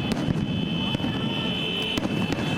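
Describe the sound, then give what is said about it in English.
Security forces in central Baghdad fire live rounds and tear gas at protesters: a few sharp cracks cut through a loud, dense, steady roar of noise. “That's the security forces firing live rounds and tear gas at protesters in the centre of Baghdad.”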